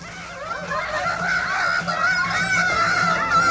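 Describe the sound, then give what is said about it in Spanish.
Harsh, squabbling calls of two rooks fighting over a stolen nest high in tree branches: continuous overlapping honking cries that stay loud and agitated throughout, with no talk. “Dos grajos se disputaban allá arriba entre las ramas un nido que habían robado.”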